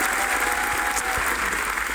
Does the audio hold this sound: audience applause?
yes